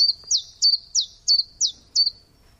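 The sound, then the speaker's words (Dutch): A common chiffchaff sings a steady, evenly spaced series of high, clipped chirping notes, each a quick downward slur, clear and alone against near silence. “Ja, goed te herkennen. Tjiftjaf zingt zich zijn eigen naam.”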